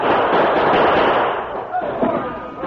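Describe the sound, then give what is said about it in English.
Gunfire rings out in a Western shootout as mounted outlaws open fire, a dense crackling volley of shots that blurs into a continuous rough roar and eases slightly partway through. “The Lone Ranger allowed the outlaws to open fire first.”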